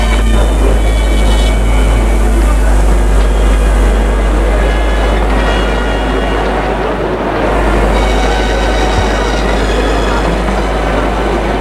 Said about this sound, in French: il va prendre un train pour Calais